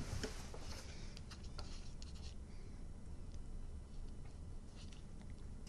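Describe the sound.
Charcoal sketching on paper as an artist draws two people: soft, continuous scratchy rubbing strokes, faint and unbroken.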